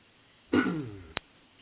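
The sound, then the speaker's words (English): A person clears their throat once in a short, rough, gravelly burst that fades away, followed by a brief click and another faint short sound. “Someone clearing their throat.”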